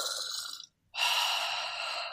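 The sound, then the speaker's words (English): A voice imitates a deep inhale, as if sniffing the crotch of a jockstrap: a breathy pull, a brief silence, then a longer sustained breathy inhale. “takes a deep inhale while pulling the crotch of this jock strap between her nose and chin, and just,”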